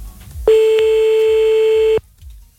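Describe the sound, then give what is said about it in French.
A telephone ringback tone on an outgoing call sounds as one long, steady, mid-pitched beep lasting about a second and a half, loud and unwavering, then cuts off abruptly. “on y va, on appelle maintenant grâce au numéro que vous avez envoyé”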